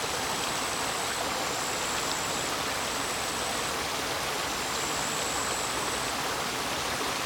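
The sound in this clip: A river stream flows with a constant, even rush of water, soft and unbroken for the whole stretch, with no voices.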